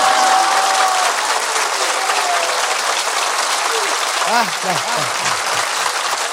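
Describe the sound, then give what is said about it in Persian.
Hands clap at a celebration of the birth anniversary of Imam Ali, a dense, continuous applause from a crowd that stays loud throughout, with a voice carrying over the clapping. “پس همه کف زدن، دست ها سرخ شده یا که حنا بندان است.”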